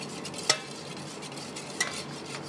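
Powdered detergent is being stirred into water. A soft, steady swishing carries two light, sharp clinks of the stirrer against the container.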